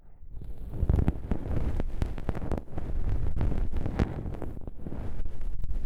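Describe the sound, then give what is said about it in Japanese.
Hardened earwax is scraped from deep in the ear: a steady run of rough, crackly scratching strokes with many short, sharp scrapes, fairly loud and with no talking. “耳の奥の方に凝り固まっている耳垢が残っているんです。まあ私にお任せください。大船に乗ったつもりでゴリゴリと削り取っちゃいますよ。”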